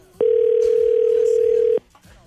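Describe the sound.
Ringing tone on an outgoing telephone call: one loud, steady, even tone lasting about one and a half seconds, stopping abruptly into near quiet.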